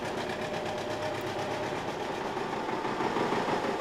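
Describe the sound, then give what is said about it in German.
A 45-horsepower John Deere R tractor engine runs under the hood with a steady, loud, rhythmic chugging that holds evenly throughout. “45 PS ackern beim John Deere R unter der Haube.”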